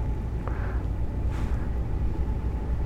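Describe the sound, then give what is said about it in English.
Low, steady rumble of a ship driving through a wide expanse of white, clean pack ice. The drone stays continuous and even throughout, with faint breathy noise above it. “So we've got a big, huge expanse of white, clean pack ice, and we're just driving through it.”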